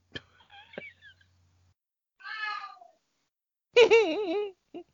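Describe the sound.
A cat meows twice, the second meow louder and longer with a wavering pitch, after a few faint scattered sounds at the start.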